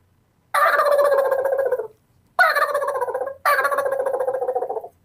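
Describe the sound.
Three long, rasping turkey gobbles imitated with a person's plain voice rather than a diaphragm call, as used in turkey hunting. Each is loud and rattling and stands alone, with short gaps between them.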